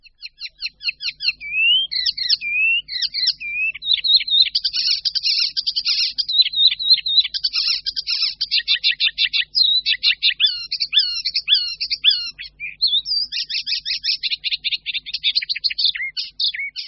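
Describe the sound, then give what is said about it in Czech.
An icterine warbler sings alone: a loud, high, continuous song of rapid, varied chattering notes, trills and whistled phrases that run on with hardly a pause. “Hlasitý, nápadný zpěv sedmihláska hajního při procházce městským parkem nebo při práci na zahradě určitě nepřeslechnete.”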